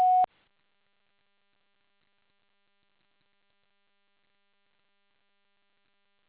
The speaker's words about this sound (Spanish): Después del tono, grave su mensaje.